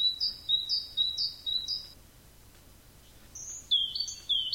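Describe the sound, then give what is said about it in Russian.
Tits call in a leafless oak grove: bright, high chirps repeating in quick bursts, with a short run at the start and another near the end, separated by a quiet stretch of faint background hiss. “уже в облетевшей дуброве разносится звон синиц”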